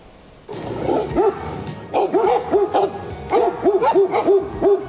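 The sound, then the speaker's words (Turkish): Stray dogs bark and yelp while fighting two bears that came down from a mountain into a national park near Ankara. Many sharp, harmonic barks come in rapid bursts, some rising and falling in pitch, over a steady rumble. “Ayılarla kavgaya tutuştular sevgili izleyenler. Dağdan inen iki ayı sokak köpeklerinin arasında kaldı.”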